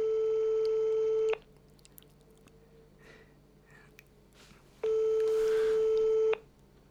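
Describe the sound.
A telephone ringback tone from an outgoing call gives two long, steady electronic tones separated by about three seconds of near silence with faint background noise.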